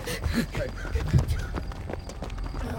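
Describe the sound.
Two people run away on foot in an audio drama, making a quick, uneven patter of footsteps at moderate loudness with a few brief vocal sounds mixed in.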